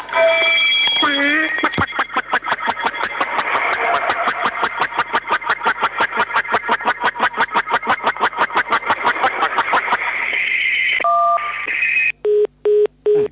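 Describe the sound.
Telephone dialing tones on a call-in phone line: a long run of rapid, evenly spaced electronic beeps, followed by a few separate steady tones near the end.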